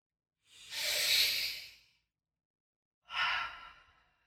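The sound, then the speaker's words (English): A person takes two deep breaths during a guided breathing exercise. Each is a long, airy, hissing exhale; the first swells and fades slowly, and the second is shorter, with silence between them. “All I have for us is let's take 3 deep breaths.”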